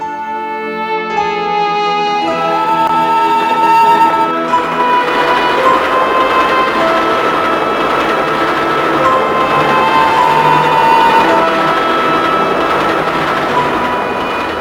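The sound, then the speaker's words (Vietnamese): A train carrying passengers away from a station runs steadily, a continuous loud rumble with a droning hum that holds level throughout, without breaks. “Tiếng máy chạy đều đều, chẳng mấy chốc đã ru ngủ những đứa trẻ.”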